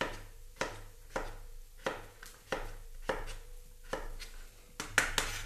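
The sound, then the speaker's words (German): A knife dicing food into small cubes, heard as faint, evenly spaced chopping strokes roughly every half second, ending in a quicker cluster of cuts. “halbieren, nochmal halbieren und dann in kleine Würfel schneiden, damit es gleich schnell durchgart.”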